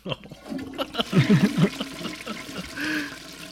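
A toilet flush sound effect: a rushing, gurgling swirl of water that runs for about three and a half seconds, with a few short tonal warbles near the middle and a brighter hiss toward the end.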